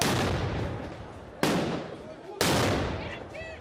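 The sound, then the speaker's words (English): Stun grenades and tear gas canisters thrown by Serb protesters at NATO soldiers in Zvečan go off as sudden, loud bangs, two sharp blasts following an opening burst, each trailing into rough, sustained noise. “Serb protesters in Zvečan threw tear gas and stun grenades at the soldiers, some of whom suffered fractures and burns.”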